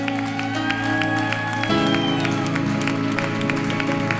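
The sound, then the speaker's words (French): Clapping and cheering from a church audience at a youth gathering, a steady, rhythmic run of claps mixed with crowd voices over sustained music throughout. “On va seulement acclamer le Seigneur.”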